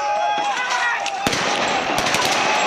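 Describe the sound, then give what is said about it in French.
Gunfire as police shoot live bullets during a riot in Kenya in which buildings were set on fire. A few sharp, loud cracks stand out over constant dense noise. “Dépassée, la police se met à tirer à balles réelles et pourchasse comme elle le peut les manifestantes et les manifestants.”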